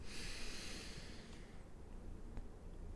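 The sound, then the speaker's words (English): A single deep breath is drawn in through the nose. The soft, airy hiss fades after about a second and leaves near quiet. “But take a breath in”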